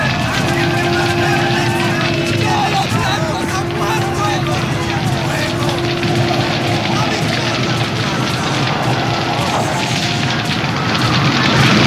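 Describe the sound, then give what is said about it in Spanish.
A fire burning a church and village gives a loud, steady roaring rumble that fills the whole stretch without a break. A sustained low hum runs through it, and voices are mixed into the din. “¡Quemen la iglesia! ¡Que todo este pueblo arda! ¡Hay que purificar esta tierra con fuego! ¡Fuego! ¡Fuego! ¡Que no quede nada en pie! ¡Fuego!”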